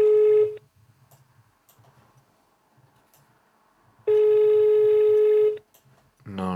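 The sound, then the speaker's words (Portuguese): A telephone rings with a steady electronic tone: a short burst at the start, then a longer burst after a few seconds of low murmur. A voice begins just after the second ring ends. “atende o telefone”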